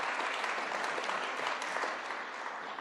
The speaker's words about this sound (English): I'll clap.